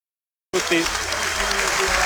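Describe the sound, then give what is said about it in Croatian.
Crowd applause at a football match as the first half ends between Segesta and Osijek, starting abruptly after a brief silence and continuing as a steady, dense wash of clapping. “Pljesak za kraj prvog poluvremena”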